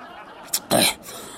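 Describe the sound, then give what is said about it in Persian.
Naswar chewing tobacco is spat out: a brief sharp puff, then a longer, louder, breathy spray that cuts off abruptly. “ببخشید دیگه، نشواری خود توف کردم.”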